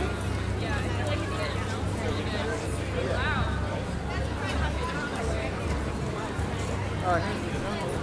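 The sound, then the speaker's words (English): Crowd chatter from many people at the Bingo Barbecue in a Disney park, near the Indiana Jones ride. A dense, steady murmur of overlapping voices continues without a break. “Well, big crowd at the Bingo Barbecue. Wow, big crowd in general.”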